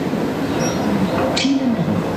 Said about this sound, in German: Fahrt mit der Straßenbahnlinie 18 in Köln.